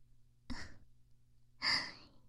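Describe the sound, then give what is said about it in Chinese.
Breathing close to the microphone: two soft, airy breaths separated by about a second, the second one longer and stronger than the first, against near silence. “怎么样？耳朵能感受到我的呼吸吗？想让这种感觉留得更久一点。”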